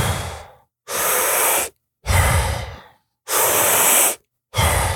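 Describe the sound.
Deep breathing during a breathwork exercise: long, loud, airy inhales and exhales alternate at a steady pace, with short silent gaps between breaths.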